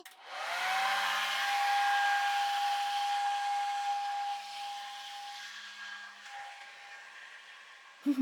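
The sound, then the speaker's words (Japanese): A hair dryer runs steadily while hair and scalp are dried and combed, giving a loud airy whoosh with a high whine and a low hum. It drops a little in level midway and ends with a few short knocks. “乾かしながらこの櫛で髪の毛をすいていって、髪の毛も、そしてその下の頭皮もまんべんなく乾かしちゃいます。”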